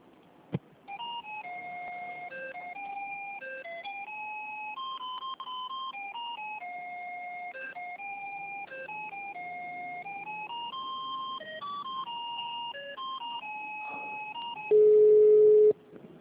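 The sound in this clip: Electronic telephone tones play while a call is transferred, alternating between two pitches in a repeating melodic pattern for about fourteen seconds before ending in a brief, loud, steady beep.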